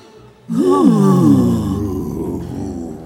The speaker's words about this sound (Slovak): Plače? No, ako každý drak, keď sa narodí. Zabeháva pľúca.